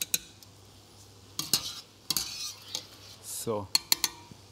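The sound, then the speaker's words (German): Garganelli with beans and red onions being tossed in sauce in a pan, with a series of sharp metallic clinks of a utensil against the pan and a brief scraping swish, otherwise quiet. “Die werden noch kurz in dieser Soße mit angeschwenkt. Genau. Die letzten paar Sekunden ziehen wir in der Soße.”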